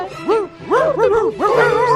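A small dog yips and barks in a handful of short, high-pitched, bouncing bursts that rise and fall in tone, with a faint whimpering quality between them.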